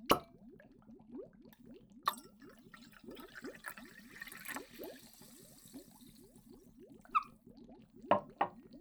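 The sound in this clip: Orange juice being stirred with a new medicine: many soft, evenly paced swirling plops repeat steadily, broken by a few sharp clinks of a spoon against the glass.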